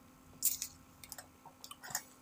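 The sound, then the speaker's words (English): Sipping cider from a glass: a few small, wet slurps and mouth clicks, quiet and spread across a couple of seconds. “So I love ciders. Let's see how we taste.”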